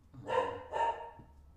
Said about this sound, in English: Again, I apologize for the dogs. Somebody walked in my backyard